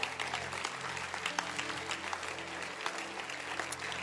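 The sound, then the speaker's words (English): Congregation clapping hands during a church service: dense, steady applause-like clapping that runs without a break, with a low tonal hum underneath. “Let your hand clap be proper.”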